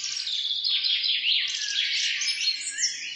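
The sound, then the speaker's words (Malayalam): Common myna birds sing in a continuous stream of chattering, warbling calls with rapid squeaky and trilling notes, fairly soft and without any talk. “എത്ര ഈണത്തിലും താളത്തിലുമാണ് പക്ഷികൾ ശബ്ദമൊരുക്കുന്നത്. ഗ്രാമീണർ മാടത്ത എന്ന് വിളിക്കുന്ന മൈനയാണ് താരം.”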